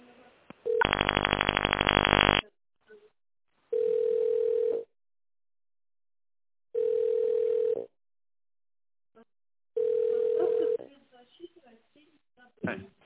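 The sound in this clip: A telephone line tone plays while a call is being connected: a harsh buzzing burst, then three steady mid-pitched tones, each about a second long, separated by silent gaps, with faint scattered noises at the end.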